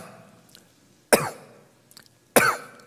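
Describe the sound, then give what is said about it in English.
A person gives two loud, sharp hacking coughs about a second apart, each a harsh burst that trails off quickly, with faint throat sounds between them. “it's a hacking cough. Ceasing, literally, the language there is a hacking cough.”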